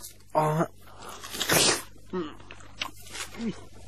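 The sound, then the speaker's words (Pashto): A crunchy bite into a melon, with one burst of wet chewing. Voiced murmurs and mouth sounds come before and after it. “څو واخله دا خټکی وخوره چې د ژوند په خوند پوه شې وروره. داسې خټکی به دې په ټول عمر کې هم نه وي خوړلی.”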